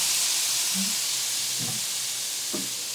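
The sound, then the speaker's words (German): Soy sauce sizzles in a hot frying pan over tofu while cooking a vegan Christmas dish, a loud, steady, broad hiss throughout with a few faint low knocks beneath it. “ich habe jetzt erstmal mit Sojasauce abgelöscht. Jetzt lasse ich noch mal ein bisschen braten.”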